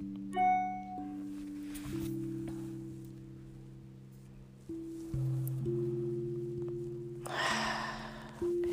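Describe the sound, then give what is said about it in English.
Slow, deep breaths in and out during a guided breathing exercise: a few soft, airy breath sounds rise over a sustained, low, calm musical drone. “So let's take 3 wonderful breaths. Follow it in, let it expand in your lungs.”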